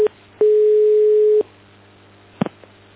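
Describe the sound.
A telephone line tone sounds as one steady, mid-pitched beep lasting about a second. It follows a very brief blip at the start, and a few faint clicks come after it.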